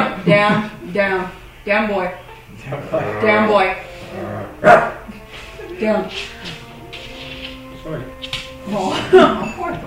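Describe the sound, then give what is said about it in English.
People imitate dogs barking during a tabletop role-playing game, making a run of voiced barks, yips and growly sounds in overlapping bursts that rise and fall in loudness throughout. “Why you guys making dog sounds?”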